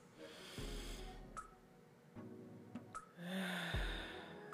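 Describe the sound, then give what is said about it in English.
A deep, full breath drawn in: a long, airy rush of inhaled air, followed later by more soft breathy sounds. “Take in a full breath.”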